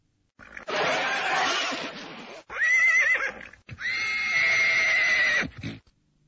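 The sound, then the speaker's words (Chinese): A horse pulling a plough in a field neighs in a long, loud whinny broken into three stretches, first rough and breathy, then shrill, strongly tonal squeals that hold a high pitch before fading, with no voices. “瞧，这可是一匹好马。”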